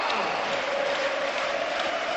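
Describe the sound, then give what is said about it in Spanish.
A crowd ovation fills a basketball arena as players stand at the centre of the court. The applause and crowd noise are thick and continuous, and a faint sustained tone runs through the middle. “Los jugadores que siguen aquí recogiendo la ovación en el centro de la cancha.”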